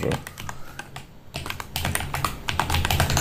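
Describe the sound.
Typing on a computer keyboard: many quick, crisp keystrokes in an uneven stream, with a short pause near the middle before the clattering resumes more densely.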